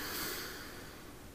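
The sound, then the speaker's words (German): A deep breath drawn in through the nose during a guided relaxation breathing exercise, a quiet, steady airy rush that fades slightly as it continues. “Nochmal tief durch die Nase ein”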